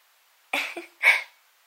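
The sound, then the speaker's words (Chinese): Throat clearing by a person: two short, rough bursts, the second fuller and louder, standing alone between stretches of silence. “我都听见你喉咙里发出来的声音了”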